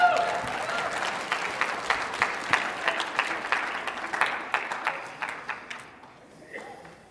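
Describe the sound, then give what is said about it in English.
A church audience applauding a pastor, many quick claps merging into a lively patter that gradually thins and fades toward the end. “Everybody, let's hear it for Pastor Joey.”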